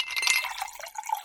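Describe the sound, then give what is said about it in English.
Cool water poured into a glass: a brief, faint trickle and splash of liquid with light glassy ringing as the glass fills. “That's the sound of your favorite college mascots pouring a glass of cool, refreshing water.”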